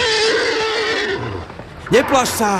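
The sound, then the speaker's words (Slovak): A horse neighs in a loud, shrill whinny near the end, with wavering, falling pitch in two quick bursts, following a stretch of a person talking over a low rumble. “Prr, koník môj, prr!”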